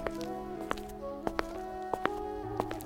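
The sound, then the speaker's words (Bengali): Footsteps of people walking: a few soft, irregular steps land over a sustained tonal background. “তারা হাঁটতে থাকে”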